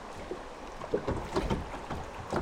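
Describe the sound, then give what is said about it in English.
Gentle water ambience on a narrow, winding northern Michigan river on a quiet summer afternoon, with soft lapping and a few faint splashes like a paddle. The sound stays low and steady throughout, and no one speaks. “On a typical quiet summertime afternoon, the Pine River sounds like this.”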